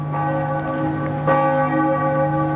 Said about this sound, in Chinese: 亚眠大教堂正午十二点的钟声敲响了